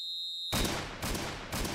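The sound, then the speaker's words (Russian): A thin, high signal whistle holds steady, then three loud gunshots crack at even half-second intervals from armed guards at a Russian prison camp in a forest. “Вслед за выстрелами раздался тонкий сигнальный свист, потом еще несколько выстрелов.”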